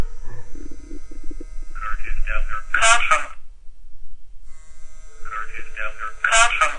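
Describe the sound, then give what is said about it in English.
A mobile phone's synthetic voice announcing a missed call, clipped electronic speech with tonal beeps, heard as two similar announcements separated by a pause of about a second, loud and clear over a low hum. “What you just heard was my phone telling me that I had a call from Curtis Delzer.”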